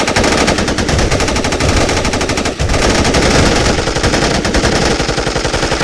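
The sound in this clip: Loud, dense automatic gunfire from 9A91 and Kalashnikov 74 rifles, with rapid overlapping bursts firing continuously from start to end and only a single brief dip.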